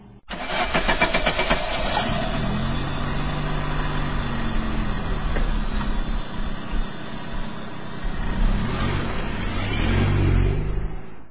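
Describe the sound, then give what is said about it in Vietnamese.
A car engine cranks with a rapid, rattling starter whir for about two seconds, then catches and runs with a steady mid-pitched rumble. The revs swell briefly near the end. “Bình Thủy giữ đám kỵ cơm cho mẹ vợ, nên ngài đứng dậy, bận áo bịt khăn rồi ra xe hơi mà đi.”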